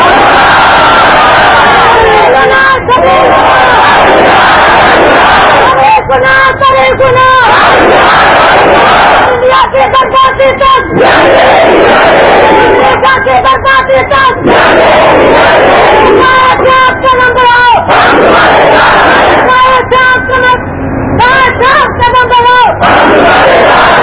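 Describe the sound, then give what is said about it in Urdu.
Loud crowd chanting of religious slogans, many voices joined in rhythmic shouted bursts that repeat every few seconds, strong and continuous for the whole stretch. “نام شور کو ہے اور نعرہ بغیر شور کے لگاتے ہیں، اللہ کا نام تو اونچا بلند کیا کرو”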